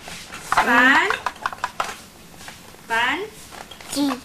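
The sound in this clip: A cooking pot and its lid are handled, with a few light metallic clinks and taps heard between people talking.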